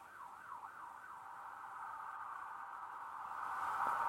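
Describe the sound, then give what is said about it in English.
Emergency vehicle sirens outside, faint at first, with a wailing tone sweeping up and down before settling into a steadier pitch, then growing louder toward the end. “I don't know if y'all can hear that right now, but it's sirens outside.”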